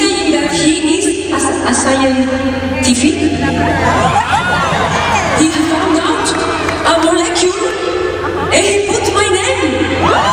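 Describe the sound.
Concert audience in Boston cheering and shouting, a loud sustained roar of many voices with whoops and excited chatter rising and falling throughout.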